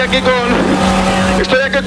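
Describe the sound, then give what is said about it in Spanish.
Steady, loud vehicle rumble inside a bus, with a voice talking over the constant engine and road noise. “Ya estoy dentro, estoy dentro del autobús.”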